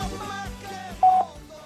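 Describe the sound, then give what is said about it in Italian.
An answering machine gives a single short beep, a steady mid-pitched tone that stands out loud and clean above a faint tonal background. “Dopo il segnale acustico, registri il suo.”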